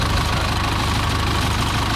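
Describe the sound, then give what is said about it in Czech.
The engine of an old Zetor tractor towing an aircraft chugs steadily, a loud low knocking idle with a regular rapid pulse and a rough mid-range rumble, no voices. “Poslední desítky metrů obstarává postarší traktor Zetor, který Albatrose odtáhne do areálu Leteckého muzea ve Kbelích na jeho nové místo.”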